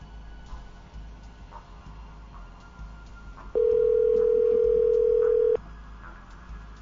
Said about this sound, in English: Okay, why don't I give you the dial tone back? Now you can dial.